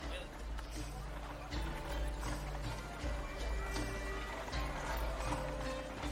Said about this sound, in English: You see them trotting, and they are turning down a side street.